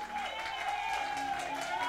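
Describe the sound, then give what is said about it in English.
A church audience applauds the choir, steady clapping blended with a wavering, sustained musical tone underneath. “Come on, give our choir a big hand clap.”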